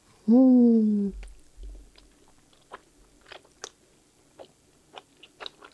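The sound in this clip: Chewing a big piece of cheese during a Korean meal. A voice hums briefly in enjoyment, then many soft crunching and smacking bites follow at irregular intervals, with no talk.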